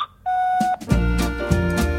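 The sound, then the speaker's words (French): A voicemail beep sounds as a single steady mid-pitched tone lasting about half a second, followed by a fuller harmonic tone sequence. “Enregistrez un message après le signal”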